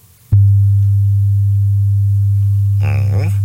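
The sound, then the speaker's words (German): A steady, low, pure hum-like tone said to counter motion sickness starts abruptly after a moment of near silence and holds unchanged at an even loudness; near the end a voice begins speaking over it. “diesen einen Ton erwähnt, ja, den japanische Forscher entdeckt haben. Der hat so eine spezielle Frequenz, exakt 100 Hertz, und der hört sich so an.”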